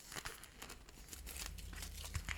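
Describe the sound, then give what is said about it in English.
Crinkling of wrapping as a package is unwrapped, a fairly quiet run of many dense crackles and rustles with no clear pauses. “Something being unwrapped. Oh my god, unwrapped. It's being unwrapped.”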